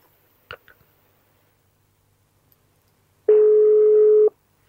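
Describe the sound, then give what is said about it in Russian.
Telephone ringback tone while a call is being placed: a few faint clicks, then a single steady mid-pitched beep lasting about a second. “Пытаемся дозвониться ему.”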